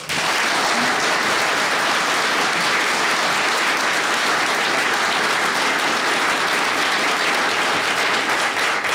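Sustained audience applause in Bakewell greets a panel of guests: dense, even clapping that holds steady at full strength throughout, with no talk over it.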